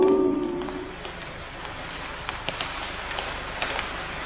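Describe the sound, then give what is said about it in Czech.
Steady rain falling on Arctic tundra: a soft, even hiss with a few sharper drop taps scattered through the second half. “My jsme ho však neviděli několik dní, stále prší.”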